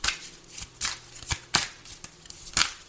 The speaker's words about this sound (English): All right, I'm using my other deck. Can we have some cards for Leo, please?